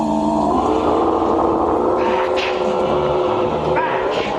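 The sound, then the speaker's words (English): A motorbike engine revving hard as the bike spins around on its back wheel, a loud, continuous roaring drone with a steady whirring edge throughout. “The bike spins around on its back wheel”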